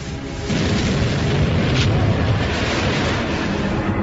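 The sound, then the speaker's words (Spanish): Explosion effect for a white dwarf star bursting as a nova: a deep, loud, roaring rumble that starts abruptly after a short quieter lead-in and then holds steady without fading. “Al sustraer materia de su compañera, aumenta su densidad y gravedad hasta que alcanza una masa crítica y estalla.”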